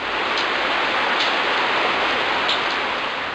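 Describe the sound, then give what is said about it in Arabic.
Rain falls in a steady, dense hiss that holds an even level from start to finish, with no talk and no separate drops standing out. “هبت ريح رطبة، أبرقت وأرعدت، وهطل المطر.”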